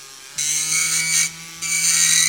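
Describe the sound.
A dentist's drill whines with a loud, steady, high-pitched tone and harsh buzzing edge, briefly dropping in level midway before resuming at full strength.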